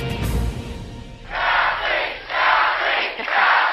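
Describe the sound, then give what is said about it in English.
Triumphant Ontario Liberals chant their leader Kathleen Wynne's name after an election victory. Loud, rhythmic group shouts come in repeated bursts after a quieter, murmuring opening. “Triumphant Liberals chant the name of their leader, Kathleen Wynne, after a surprise victory in the Ontario election that has returned them to power with a majority mandate.”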